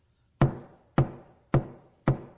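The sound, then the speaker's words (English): Knocking on a door, done as a demonstration during a sermon: four sharp, evenly spaced raps with short ringing decays, heard alone against near silence. “Get everybody's attention, right? Somebody's at the door. Somebody's knocking at the door.”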